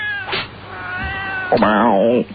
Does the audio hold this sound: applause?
no